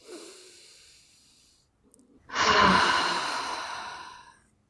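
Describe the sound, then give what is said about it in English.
A deep breath, with a quiet, airy inhale, a short pause, and then a long, louder breathy exhale that slowly trails off. “Good deep breath.”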